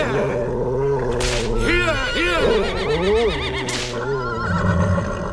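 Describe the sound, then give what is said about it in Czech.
Restless horses neigh and whinny as snow falls, several loud, wavering calls that swoop up and down in pitch over a continuous low rumbling backdrop. “Koně byly čím dál neklidnější.”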